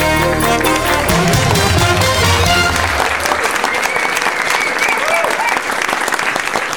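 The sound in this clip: Loud, dense audience applause at an awards show, greeting a comedy double act as they come on. The clapping stays full and steady throughout, with crowd noise mixed in.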